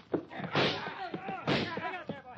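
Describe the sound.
Gunshots ring out in a 1950 radio crime drama: two loud, sharp blasts about a second apart, with voices talking between and after them.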